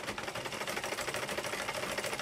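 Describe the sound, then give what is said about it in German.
A sewing machine stitches a dress in a mud-brick workshop in a village in western Niger, where a young seamstress works. The rapid, even clatter runs continuously at a steady rhythm, faint and alone. “Die 19-Jährige hat im Mai eine Nähmaschine bekommen und in einem der Lehmgebäude des Dorfes Djagourou ihre Werkstatt eröffnet.”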